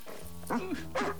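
A dog gives two short whimpering yips, high and whiny, over a steady low hum.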